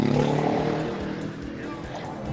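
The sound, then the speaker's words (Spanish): Motorcycles passing along a city street, a loud rumbling engine roar that fades and swells as they go by, with speech partly audible underneath. “Perdón por el ruido de los motos.”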